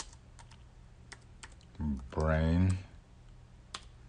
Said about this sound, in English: I'm just going to type in content idea